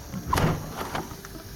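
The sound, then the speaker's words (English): A window is cracked open, giving a brief sliding, scraping rush of noise that swells and fades within a steady hiss. “I'll crack open the window.”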